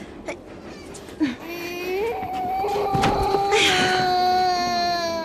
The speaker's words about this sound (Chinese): 乖孩子，别哭了